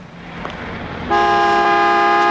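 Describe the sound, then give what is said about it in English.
A car horn at a gas station pump line blares in one long, steady, loud honk that cuts in after a second of low background rumble and holds unbroken to the end. “Keep leaning on that tooter, Charlie, and you're gonna get a shot in the mouth.”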